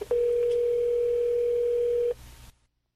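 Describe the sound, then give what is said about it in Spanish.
A telephone tone sounds as a call is placed: a single steady, clear tone holds for about two seconds, then cuts off abruptly to faint hiss and silence. “Vamos a tratar de hacer esta llamada sorpresa. A ver si nos sale. Marca ahí, por favor. Marca ahí.”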